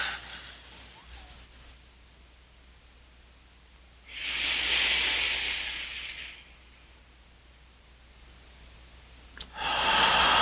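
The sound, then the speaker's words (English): Slow, deep exhales during a breathing meditation come as soft, airy hisses. One lasts about two seconds mid-clip, and another begins at the end, with near silence between them. “three more. Exhaling.”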